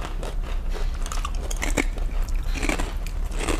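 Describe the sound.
Close, continuous crunchy chewing of pico de gallo made with tomato, onion and green pepper, with soft wet crunches and bites repeating in an uneven rhythm.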